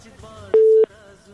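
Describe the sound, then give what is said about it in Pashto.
A telephone busy tone sounds after a caller's line was cut: a single short, steady mid-pitched beep standing alone over faint low hiss. “له بده مرغه چې د همدرد صاحب اړیکه پرې شوله”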